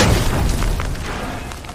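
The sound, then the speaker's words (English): A deep, rumbling boom from an explosion in a mine shaft set off by a lit fuse. The broad roar is loud from the start and holds steady, easing off only slightly toward the end. “And then the explosion happens.”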